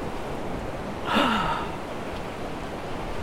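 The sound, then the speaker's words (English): A single deep breath, taken during a guided breathing exercise, rises briefly as a soft, airy rush over steady background hiss, then fades back into the noise. “All right, deep breath in.”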